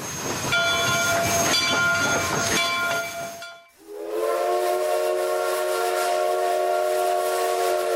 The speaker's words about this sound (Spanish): Les saluda su amiga Yasmín en una parada más de la Estación del Tren Inicial.